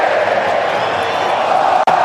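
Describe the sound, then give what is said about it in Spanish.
Crowd roar from a football stadium during a Colombia match in Vancouver, a steady, loud wall of voices that holds level for about two seconds. “Escucha el público.”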